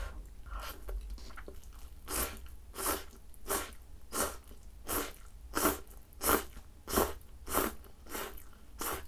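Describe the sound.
Curry instant noodles with potato being eaten, heard as many wet slurping and chewing bursts in a steady, fairly even rhythm, moderately loud with no talk.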